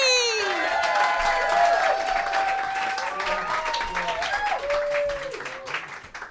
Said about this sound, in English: Guys, give it up for Sarah Ali. And keep that applause going for our final act of the evening.